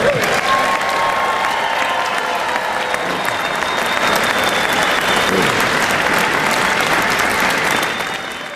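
Applause from a crowd welcoming home Honor Flight Syracuse veterans after Mission 24: loud, steady, sustained clapping that carries on without a break and eases off at the very end.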